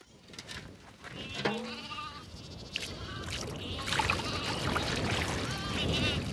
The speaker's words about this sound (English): Her cashmere goats climb over each other to drink.